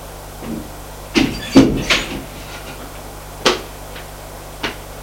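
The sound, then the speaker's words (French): An office door being opened: a quick cluster of three sharp knocks and clunks from the handle and latch, then two more isolated clicks later, over quiet background hum. “ouvre la porte du bureau de Maurice”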